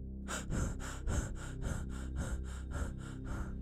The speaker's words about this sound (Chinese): 他开始恐惧，呼吸也变得越来越急促。